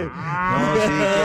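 A cow moos during live milking, one loud, drawn-out low moo with a rich, buzzing tone lasting just over a second.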